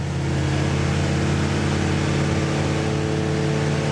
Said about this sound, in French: Allez, la grande ligne droite du circuit d'Albi. 6500 tours. Quatrième. Cinquième.